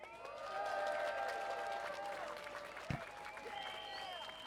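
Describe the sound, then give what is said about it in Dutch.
Crowd applause at a street protest for solidarity and against fascism, steady clapping that swells early, with a brief thump partway through and tonal whistles or shouts mixed into the dense clapping. “Mag ik alsjeblieft voor hun allemaal een applaus?”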